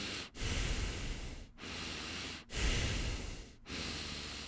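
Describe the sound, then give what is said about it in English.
Heavy breathing through the nose from someone feeling nauseous while waiting in line. A series of long, loud, rushing breaths follows one after another, with only brief pauses between them and no talking. “I'm doing that thing that I do when I feel the pukey coming on and I just breathe heavily from my nose.”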